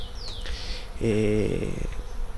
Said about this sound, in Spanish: Y si escuchan detenidamente de fondo, hay un zumbido, y ese zumbido son abejas ya que están saliendo a reconectar en néctar.